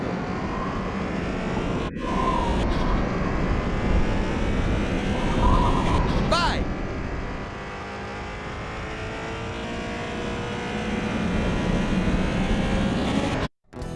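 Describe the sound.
A racing car engine from an audio video game played in the dark, a steady whining drone with brief sweeping pitch glides and a few sharp clicks that ends abruptly.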